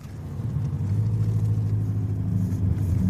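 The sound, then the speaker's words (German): Steady low engine rumble of a car turning right out of a parking lot during a driving lesson, an even drone that holds for the whole three seconds without talk. “Genau, wir fahren hier rechts runter vom Parkplatz.”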